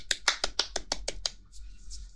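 Hand claps ring out as applause, eight crisp, evenly spaced claps in a quick steady rhythm, followed by a faint hiss once the clapping stops.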